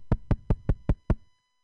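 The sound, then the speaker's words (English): A comedian on stage at an open mic acts out someone knocking on a door, rapping six sharp, evenly spaced knocks in quick succession within about a second, then silence. “it's my sister knocking at the door.”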